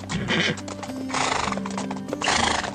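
A horse gallops with steady, dense hoof clatter, and loud whinnying neighs rise above it in a few bursts. No voices are heard.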